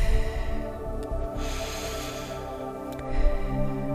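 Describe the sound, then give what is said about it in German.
A long, steady exhale drawn out during a guided relaxation breathing exercise, a soft breathy rush lasting about a second and a half over sustained, gentle background music tones. “Nochmal Entspannung einatmen und alles, was du nicht mehr brauchst, loslassen, ausatmen.”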